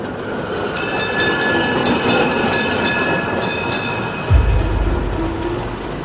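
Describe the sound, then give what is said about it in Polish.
A tram rumbles along its rails in a steady rolling drone with a faint rattle, and a heavier low thump swells in near the end. “Glina wysiadł z tramwaju i odnalazł ulicę Kurkową.”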